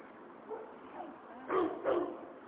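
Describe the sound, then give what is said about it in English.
Loose dogs barking: four short barks, the first two softer and yip-like, then two louder, fuller barks close together, with no talk over them. “I think those are loose dogs. Oh. And like he's shooing them off.”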